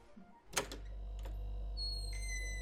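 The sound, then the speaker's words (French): Refrigerator hum in a home kitchen: a quiet, steady low drone that runs the whole time, with a couple of brief clatters near the start and thin high whining tones joining in toward the end. “Là on est dans la cuisine de chez Chloé pour un petit événement avec un joli bruit de frigo.”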